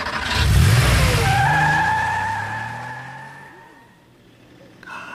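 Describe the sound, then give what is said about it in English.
A car pulling away in Texas with a skidding tire squeal, its engine loud at first and then fading steadily, with a thin whine drawn out over the roar. “I'm just going to keep driving until they're not.”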